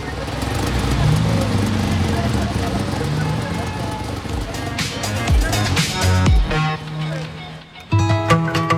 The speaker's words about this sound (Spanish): Te entregamos el sonido de la calle. Este es el sonido de Valparaíso. Esta es la calle Independencia, entre Las Heras y Rodríguez, donde están los estudios de BioBio.